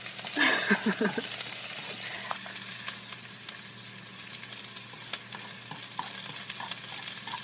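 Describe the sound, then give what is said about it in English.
A spoon scraping and stirring in a pan over high heat. A brief sizzling burst at the start gives way to faint, scattered scrapes and clicks over a steady, quiet hiss. “Oh, I hear a spoon. Something scraping.”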